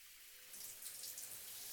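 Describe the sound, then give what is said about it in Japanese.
Shower water running while rinsing someone's hair, a soft, steady hiss of spray that grows slightly fuller partway through and carries on evenly. “それでは頭流しますね。”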